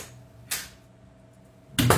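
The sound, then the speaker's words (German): A door opening: a short, sharp clunk, then a quiet pause and a second, louder clatter, both faint overall. “öffnete sich endlich die Tür und der Wachmann erschien.”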